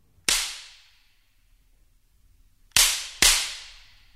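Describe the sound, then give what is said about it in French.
Sharp wooden cracks from a slapstick, two long flat wooden boards joined by a hinge, imitating a whip crack: one loud snap, then after a pause two more in quick succession, each bright and ringing briefly before fading. “Ce sont aussi deux morceaux de bois, mais longs et plats, articulés au moyen d'une charnière qui forme le fouet. L'imitation d'un claquement de fouet est saisissante.”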